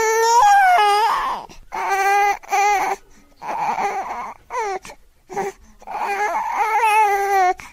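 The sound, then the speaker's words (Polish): Babies crying at the same time, heard as loud, high, wavering wails in repeated bursts with short breaks between them. “Jest tak, że płaczą równocześnie? O jest. Czasami tak.”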